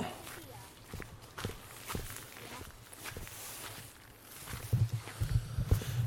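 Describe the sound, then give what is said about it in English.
Footsteps walk along a muddy raised embankment beside a puddled track, with many soft, irregular treads and scuffs that grow heavier and more thudding toward the end. “Okay, so puddles in the middle of the track, which means we're walking on the muddy raised embankment on the right hand side.”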